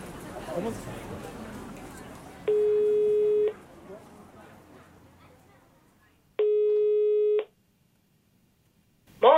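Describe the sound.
A telephone ringback tone sounds as a researcher is called back about climate policy. Two identical steady, mid-pitched beeps of about a second each are separated by a long pause. Talk comes before them, and a voice begins at the end.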